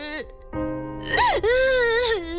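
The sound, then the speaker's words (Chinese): A girl cries in an acted drama scene with whimpering, wailing sobs. The voice is strained and tonal, swooping up and then dropping in pitch before holding a drawn-out moan. “别哭了啊”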